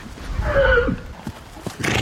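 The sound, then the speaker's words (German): A foal on a paddock gives one high, wavering whinny in the first second, followed by a few soft, dull thumps of hooves. “Sogar auf Jessica von Bredow-Werndls Koppel in Aubenhausen bei Rosenheim sind die Fohlen im WM-Fieber.”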